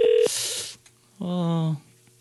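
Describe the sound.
Telephone dialing tones sound during a live call-in attempt to a caller who does not answer: a brief keypad beep, then a short buzzy ringing tone, with voices around them.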